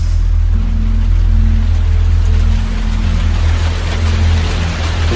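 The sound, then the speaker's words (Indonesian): Heavy rain falls steadily as a loud, dense, unbroken hiss with a low rumble beneath it. There are no voices and no change in strength. “Sampai di bawah, tak lama kemudian hujan pun turun cukup deras.”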